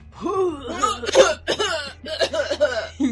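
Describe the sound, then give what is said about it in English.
A voice imitates throat clearing, as if trying to dislodge a baked good stuck in the throat: a run of strained, voiced rasps and hacks, several in a row, filling about three seconds. “he kind of slumps to the ground and tries to, you know, clear the extra baked good from his throat”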